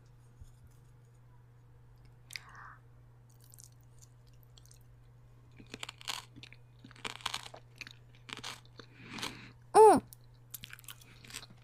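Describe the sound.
Someone chews and crunches food while tasting it. Crisp bites and chewing sounds come in a quiet, irregular run that thickens partway through and then trails off.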